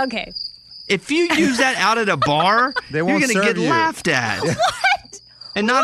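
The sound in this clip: A crickets-chirping sound effect gives a steady, high, shrill chirring that is plain in the pauses and runs under lively talk between several people throughout.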